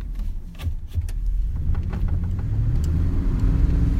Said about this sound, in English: there's no actual road to get there, so we're driving over sand dunes.